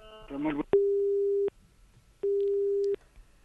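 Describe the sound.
Telephone busy tone after a call is cut off: two long, steady mid-pitched beeps separated by a pause, clear and fairly loud, following a brief moment of voice at the start.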